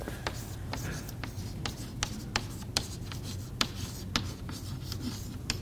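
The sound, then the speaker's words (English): Pen scratching across paper as someone writes notes by hand, many short, dry strokes and faint ticks coming in a steady, uneven rhythm. “I'm writing that down because I want to talk about it next.”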